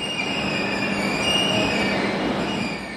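Steady rumble of an express train from Verona to Munich at Brenner station, the last Italian stop in the mountainous Austrian border region, with high, sustained wheel-squeal tones above it. The sound is loud and unbroken throughout, with no voices.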